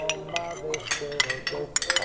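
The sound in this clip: A utensil clinks and scrapes against a dish as salt and olive oil are stirred into celery, making many quick, light, irregular taps and rattles.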